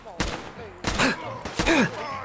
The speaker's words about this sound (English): Here's a super mutant. Gosh dang it, I can't get him. He keeps on backing up. He's getting a lot of shots on me, though, as he moves around.